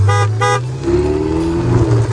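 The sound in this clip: A Ferrari sounds two short, bright horn toots in quick succession, then its engine carries on in a steady, loud hum.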